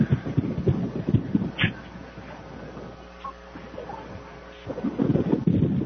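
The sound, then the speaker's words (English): Strong wind buffets a microphone outdoors at a field sports game, a loud, gusty, low rumbling that eases into a lull midway before surging again. “this wind is crazy.”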